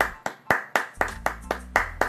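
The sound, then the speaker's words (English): Eight sharp hand claps land in an even, quick rhythm, each one crisp and short, over a faint low hum. “I done forgot the claps. Hold up.”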